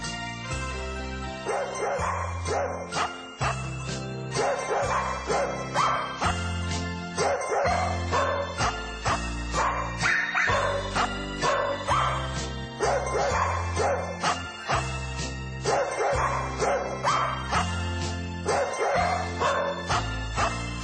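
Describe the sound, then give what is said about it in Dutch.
A record plays Happy Birthday performed by little dogs, with barks and yips forming the tune over a steady backing of music. The rhythmic barking phrases repeat at an even volume throughout, with no talk. “we gaan nog een plaatje wegdraaien voor hem. Happy birthday to you.”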